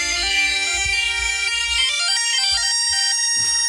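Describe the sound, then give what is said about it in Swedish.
A phone plays an electronic synth sound: bright, sustained buzzy tones that step upward in pitch, loud and continuous, with no talk. “på den här telefonen som Kristoffer pratade med. Den låter så här, den är ganska cool.”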